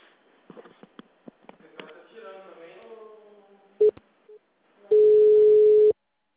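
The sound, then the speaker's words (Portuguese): A telephone ringback tone plays while a caller waits for a power utility's call center to answer. Talk and breathy sounds come first, then a short beep, a brief faint tone, and one steady, loud tone lasting about a second. “Tô esperando o Fossa Luz atender.”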